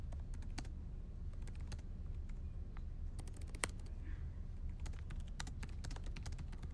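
Typing on a laptop keyboard while writing articles produces many quiet, irregular key clicks, with occasional sharper taps, over a steady low background hum.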